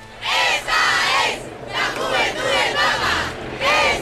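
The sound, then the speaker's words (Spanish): A large crowd fills a street in central Madrid during a mass event, shouting and chanting in loud, rising and falling waves with brief dips between surges. “Este es el sonido de la calle.”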